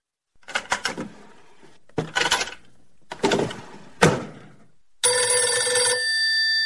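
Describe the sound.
A telephone rings in a steady, loud electronic tone. Four clattering, knocking bursts come first, then the ring starts abruptly and holds to the end.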